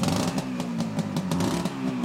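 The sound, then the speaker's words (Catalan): A motorcycle engine runs, a steady low chugging throb made of rapid regular pulses with some mechanical clatter, loud and without voices. “quan li van descobrir la moto, la va engegar, va omplir de fum tot allò. No, no feia fum, aquesta. Rum, rum.”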